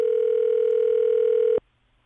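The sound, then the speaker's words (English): Telephone dial tone of an outgoing phone call: a steady, single-pitched tone held loud for about one and a half seconds, then cut off abruptly into near silence. “Here's what a simple 5-minute phone call to check in on someone can look like.”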